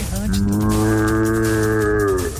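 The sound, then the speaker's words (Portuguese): A berrante cattle horn is blown in one long, loud bellowing note, buzzy and rich in overtones. It rises slightly in pitch at the start, then holds steady for about two seconds. “Eu também sei tocar berrante, olha só.”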